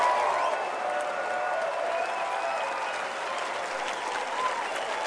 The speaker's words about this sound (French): Alors ce matin, êtes-vous prêts à les saluer? 1, 2, 3. Allez, donnez-leur une ovation.